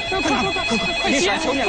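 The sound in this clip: Telephone ringtone for an incoming call, steady high electronic tones sounding continuously beneath overlapping voices that talk loudly over it.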